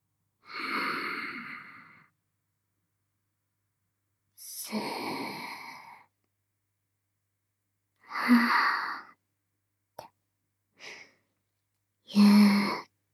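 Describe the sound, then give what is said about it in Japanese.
Slow, deep breaths drawn in and let out as long, airy sighs, several of them separated by silence, with a couple of short, quick breaths near the end. “ほら、ゆっくり深呼吸してから。”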